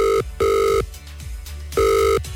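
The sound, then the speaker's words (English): A telephone rings after a number is dialled: a loud electronic ring tone in short paired bursts separated by a pause, sounding alone without any voices. “We've got her number, so let's just dial the number.”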